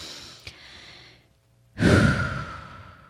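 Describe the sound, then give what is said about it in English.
A deep breath is taken: a long, soft inhale, then a brief silence, then a loud, sighing exhale that slowly fades. “right now, I'm going to take a deep breath with you all.”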